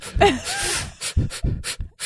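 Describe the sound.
A person imitates someone breathing in noisily, producing a series of short, breathy, hissing intakes separated by brief pauses, with a soft voiced sound near the start.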